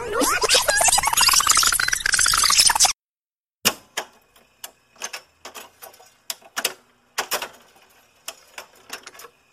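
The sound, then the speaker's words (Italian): A cassette tape is rewound with a pencil: a dense warbling whirr of sped-up tape runs for about three seconds, then stops, and many irregular dry clicks and ticks follow. “Direi di riavvolgere il nastro e tornare agli anni Ottanta. Facciamo subito. Prendo la mia matitina e riavvolgo il nastro.”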